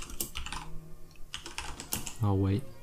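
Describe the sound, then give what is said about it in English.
Rapid typing on a computer keyboard, many quick key clicks in an uneven rhythm, with a brief voice cutting in near the end. “Typing away.”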